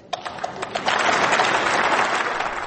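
Applause in a parliament chamber, starting as a few scattered separate claps and quickly thickening into dense, steady clapping that holds loud to the end.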